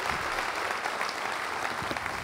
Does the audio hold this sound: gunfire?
no